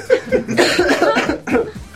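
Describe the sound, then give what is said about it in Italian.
A person coughs in a short, loud fit of a few rough, hacking bursts, with breathy, throaty sounds between them. “Mannaggia la tosse. Porco la tosse.”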